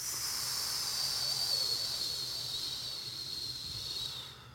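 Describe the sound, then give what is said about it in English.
A single long exhale during a breathing exercise: a steady, breathy hiss that holds evenly for several seconds and then fades away at the end, with no talking. “Pause, pause, breathe in. Pause, pause, breathe out.”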